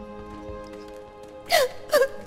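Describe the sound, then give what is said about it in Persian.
Crying: two sharp, loud sobbing bursts with falling pitch near the end, over a steady held tone. “هی چرا گریه میکنی؟”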